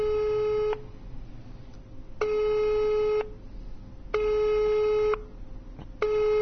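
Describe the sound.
Telephone ringing tone heard while calling a direct phone number: steady electronic tones, about a second each, separated by pauses. Four tones in all, the last cut short, over faint background hiss.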